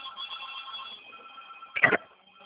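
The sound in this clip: A telephone rings on a call placed to an elderly woman, with steady, faint warbling tones for about a second that fade out, followed by a short, louder burst of noise.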